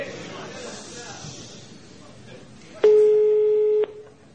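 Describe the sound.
Telephone busy tone after the other party hangs up on a call: one loud, steady, high beep lasting about a second, following quieter talk.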